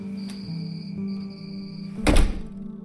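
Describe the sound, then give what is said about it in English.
A door opens with one solid, low thunk near the end, heard over a steady tonal drone that holds throughout. “She opens the door.”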